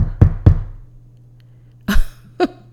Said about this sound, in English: I hear a knock at my door